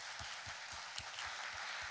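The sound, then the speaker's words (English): A church audience claps to welcome visiting guests from Nigeria during a morning worship service. The applause is steady and dense, with a regular underlying pulse, fairly soft and without talk. “We welcome James and Charity from Nigeria here this morning. Yeah, let's give them a hand.”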